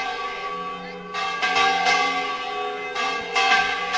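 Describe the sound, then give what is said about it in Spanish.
A church bell rings a festive peal for a septenario festival in Moya, Spain, with repeated loud metallic strikes and a long, sustained ringing that carries between the strokes. “esa campana que todavía suena de la iglesia de Santa María de Moya. Así es como suena a repique en un septenario.”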